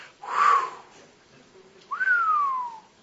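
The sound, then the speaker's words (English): A person whistles in amazement: a breathy, hissing rush of air first, then after a pause one clear whistle that starts high and slides steadily down in pitch before fading. “Perpetual hissing, it means amazed whistling. It's like someone seeing something just going,”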